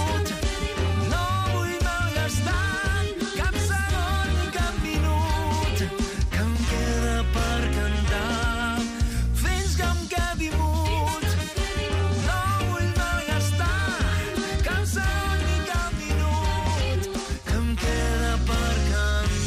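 A song, the opening track of an album, plays throughout: dense full-band music at a steady, loud level, with sustained melodic lines over a continuous low bass.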